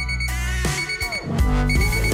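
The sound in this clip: An alarm clock rings loudly and continuously, its bright electronic tones shifting and repeating in a busy, insistent pattern with no pauses.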